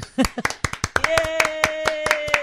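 One person claps steadily, the crisp hand claps coming in a quick, even rhythm through the whole stretch. A sustained steady tone joins about halfway and continues beneath the claps.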